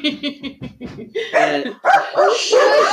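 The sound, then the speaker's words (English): A dog barks and yips again and again in quick, loud succession. High sharp yips come first, then denser, fuller barking with some whining toward the end. “just like the dog's barking. It's going to be in there.”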